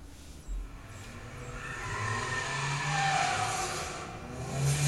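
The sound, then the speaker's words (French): A car drifting with skidding tyres, a sustained engine roar and squealing rubber that swell and hold steady for several seconds before rising again at the end, loud with no talk. “Ah, du drift Il y a un peu de drift”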